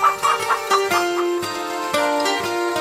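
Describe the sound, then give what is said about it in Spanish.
Hens clucking in a henhouse: a few short clucks in the first second, then steady tonal music carries on loudly with shifting notes. “Lo colocó en el gallinero junto con las gallinas.”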